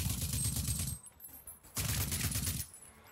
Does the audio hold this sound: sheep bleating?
no